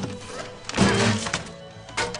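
A rare handmade Gibson guitar smashed during a live show: one loud crunching, shattering impact with low string tones ringing after it, then a few smaller knocks.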